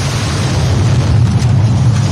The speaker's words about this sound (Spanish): Fue la explosión que paralizó y estremeció al norte de Guayaquil el pasado 14 de octubre de 2025.